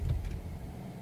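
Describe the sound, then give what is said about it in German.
A car engine rumbles as the car drives out toward a village on a hot heath. The low, steady drone runs throughout the short moment, with no voices. “ließ den Motor an, alle Hoffnung auf einen Feierabend im Schwimmbad fahren und knatterte eine Viertelstunde später nach dem Dorfe Hechtheim in der heißen Heide.”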